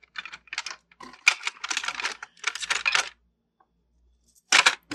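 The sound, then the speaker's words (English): Clattering of kitchen utensils being rummaged through in search of a knife for slicing lemons for lemonade. Many quick metallic clinks and rattles come in bursts, then a pause, then a final short burst, with no talk. “If I can find me the knife I'm looking for.”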